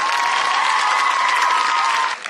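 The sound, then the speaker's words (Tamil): Dense, loud audience applause with some cheering holds steady, with a sustained tone running through it, then cuts off abruptly near the end. “நாங்க இந்த மூணு பேருக்கும் புடிக பலத்த கைத்தட்டலை.”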